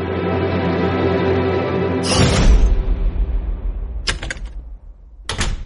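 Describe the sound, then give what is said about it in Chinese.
A solid wood office door swings shut with a heavy, low thud after a sustained tonal sound. Two sharper, briefer knocks follow later as the sound settles. “徐局办公室的门被关上，屋内的一切动静都被隔绝在实木门之后”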